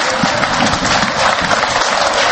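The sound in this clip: Dense, continuous applause from hundreds of believers welcoming church leaders at a cathedral, a loud bright patter of many hands with faint murmuring voices mixed in throughout.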